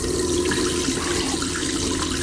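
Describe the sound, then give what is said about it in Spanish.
Water running steadily from a tap into a small sink in a cramped airplane lavatory, heard as a continuous, even rushing hiss with no breaks and no voices. “mete las manos debajo del grifo. Cuando retiene agua suficiente, se la lleva a la boca.”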